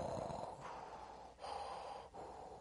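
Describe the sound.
A voice imitates a masked villain's mechanical breathing with slow, raspy, hollow breaths. The breaths alternate in a steady cycle at low volume with short gaps between them.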